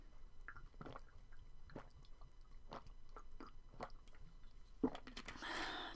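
Faint, wet sips and swallows come as someone drinks in an otherwise quiet space. The sounds are soft, and a louder click and a brief burst of noise follow near the end.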